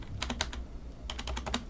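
A realtor types on computer keys to search multiple listings of homes for sale in Wilmette, giving two quick bursts of several soft keystrokes separated by a short pause, faint and with no talk.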